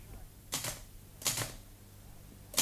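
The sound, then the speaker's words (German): Typewriter keys are pressed in a few short clusters of sharp mechanical clacks, with pauses of quiet in between. The keystrokes are fairly faint against a low background hum. “sitzt stundenlang vor seiner Schreibmaschine, freut sich wie ein Kind, dass er die einzelnen Tasten herunterdrücken kann und dann die Buchstaben auf dem Papier erscheinen.”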